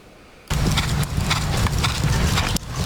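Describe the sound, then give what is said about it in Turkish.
Ahal Teke horses, a breed used in show jumping, endurance riding and dressage, clip-clop after a brief quiet start, their hooves striking in a rapid, continuous, fairly loud patter. “Türk kültürüyle özdeşleşen Ahal Teke atlarının sadece miras değil, sportif başarıda da öncü olması hedefleniyor.”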